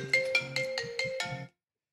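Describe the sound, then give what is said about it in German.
A phone ringtone signals an incoming call, playing a short, bright electronic melody of several quick notes that cuts off abruptly, leaving silence. “Super. Jetzt ruft die Julia an.”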